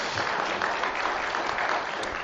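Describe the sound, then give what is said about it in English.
A church audience claps, a steady, dense round of applause that carries evenly from start to finish. “We got to clap for him too, because you clap for Jonathan.”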